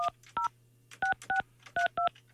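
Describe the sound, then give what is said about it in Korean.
Touch-tone telephone dialing beeps as a number is keyed to call a contest listener: several short, evenly loud paired-tone bursts, spaced irregularly over a steady low line hum, with no voices. “자, 다시. 8580번님께 전화합니다.”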